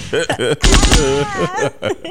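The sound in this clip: Bursts of video game gunfire rattle out in a dense, rapid cluster midway through, buried under men talking and laughing over the game.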